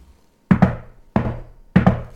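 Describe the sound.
A secret knock raps on a hidden door in an alleyway: a quick double knock, a single knock, then another quick double knock, each hit sharp and loud with a short ringing tail.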